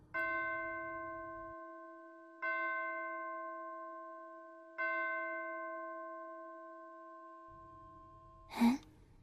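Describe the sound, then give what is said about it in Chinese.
Bell chiming: three evenly spaced, clear metallic strikes, each ringing out with rich overtones and slowly fading, over a faint low rumble, with a short breathy sound near the end. “梦里有时间的吗？居然还有钟声。”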